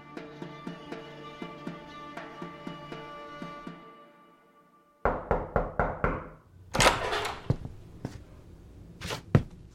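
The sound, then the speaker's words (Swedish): Knocking on a bedroom door in the morning, done by a father: a quick run of about six sharp raps, then a few louder, heavier thumps, after a rhythmic stretch of ringing tonal notes. “En morgon knackade pappa på min dörr för att väcka mig.”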